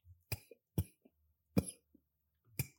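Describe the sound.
Harsh coughing from someone choking during a conversation: four loud, separate cough bursts spaced unevenly, with small throaty sounds between them.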